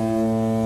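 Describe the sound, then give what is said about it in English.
A ferry horn sounds one steady, deep, droning blast, loud and unwavering throughout with no other sound. “the one being drowned out by the ferry horn, which sounds like this.”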